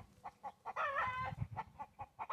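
Chickens clucking softly in short, rhythmic bursts, broken by one longer, drawn-out call in the middle before the quick clucks resume.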